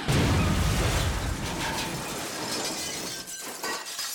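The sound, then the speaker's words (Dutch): A robot's arm cannon blasts a hole in a wall: a loud, broad crashing burst of shattering debris that holds steady, then slowly thins and crackles out. “Dan schiet ze met haar schietarm een gat in de muur.”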